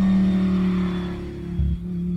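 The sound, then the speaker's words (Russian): A car engine revs as the car pulls away quickly, a steady low drone with a brief surge partway through. “быстро шмыгнул в машину дал по газам”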